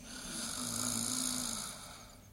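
A woman snoring in her sleep: one long, drawn-out snore with a steady buzzing tone that swells up, holds and then eases off, moderately loud with no talking.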